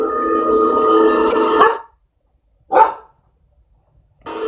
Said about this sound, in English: That's my dog.